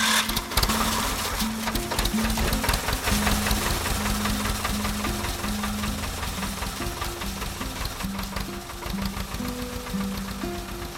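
A vehicle engine crawls along slowly in first gear with lights on, giving a steady, rhythmic knocking drone with a low repeating tonal pattern that runs unbroken throughout.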